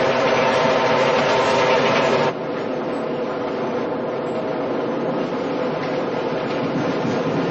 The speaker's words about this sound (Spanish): Pero el tren pasa de largo.